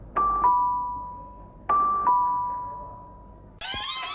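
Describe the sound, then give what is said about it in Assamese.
A two-tone doorbell chime rings twice, each bright ding-dong decaying slowly, and a short noisy rattle follows at the very end. “Calling বেলটো সেইফালে আছে।”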